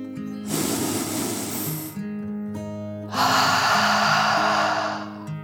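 A dragon's deep breath in and out: two long, breathy rushes of air, the second louder and brighter, over soft sustained musical tones.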